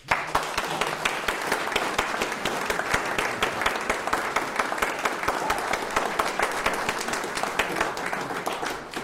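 An audience applauds to welcome a singer onto the stage at a Wagner opera evening, with dense, steady clapping that holds an even level throughout and no voices over it.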